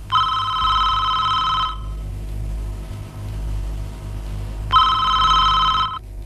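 A telephone rings in two long, bright electronic trilling bursts, separated by a pause of about three seconds, over a low, steady hum.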